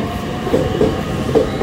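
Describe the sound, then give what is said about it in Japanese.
A limited express train on the JR Joban Line pulls out of Izumi Station in Iwaki, Fukushima, with a steady rumbling roll and light, rhythmic wheel clacks, heard alone without talk. “発車しました。駅のホームに降り立ちました。”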